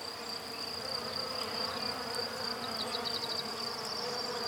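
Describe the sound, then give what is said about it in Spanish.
Bee buzzing, a steady insect drone that holds unbroken at an even level for the whole stretch, with no voices over it. “Hola, soy la tía abeja. Las vi llegar con el sapo Jamis. Acompáñenme a mi enjambre, ahí estaremos seguras.”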